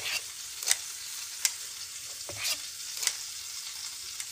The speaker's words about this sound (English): Scooping some pancakes here.